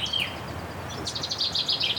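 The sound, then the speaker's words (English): Chaffinch and chiffchaff singing in the churchyard of an old Norman church in Herefordshire: high, bright chirps and a short trill, followed by a quick run of repeated sharp notes. “Chaffinch above me as well. Chiff-chaff, chaffinch.”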